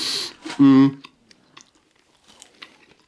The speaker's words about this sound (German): Schau, ich muss das hier nebenbei erstmal ein Plätzchen essen, das nützt hier nicht.